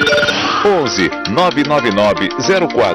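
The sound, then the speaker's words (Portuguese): A radio show's WhatsApp jingle plays loudly: a bright, busy melody of sliding, bending tones over a dense backing, running for a few seconds. “Olha a vinheta aqui do WhatsApp.”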